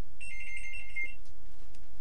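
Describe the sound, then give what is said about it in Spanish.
A telephone ringing: one high, warbling electronic ring burst lasting about a second, then silence apart from a steady low background hum. “Están llamando por teléfono.”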